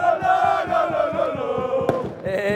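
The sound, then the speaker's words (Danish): A crowd celebrates in an Aarhus street the city's first football championship in 40 years, while a jazz band plays a school song and people sing along. A loud, steady tonal melody runs over a regular low beat. “Det kan jeg jo selv prøve at vurdere ud fra den her lyd. Altså, festen den startede kl. 8, og nu har den varet i 4 timer hernede ved busgaden, hvor der er, lige nu står et jazzband og spiller med på skolesangen.”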